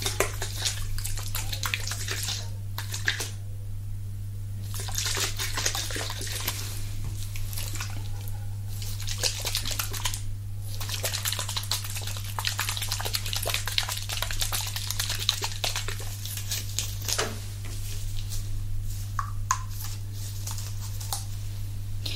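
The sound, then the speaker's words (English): Liquids are poured and worked into hair, giving continuous wet squishing and swishing with a couple of short pauses, over a steady low hum; no voices. “I'm gonna put a few liquids inside of your hair, okay?”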